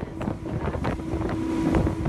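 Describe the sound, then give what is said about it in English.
A speedboat motors across the water off the coast of western France, heading out to an anchored tall ship: a steady, loud engine drone with a sustained hum, mixed with gusty wind buffeting throughout. “We make our way in a speedboat out to the magnificent tall ship anchored in the waters off the coast of western France.”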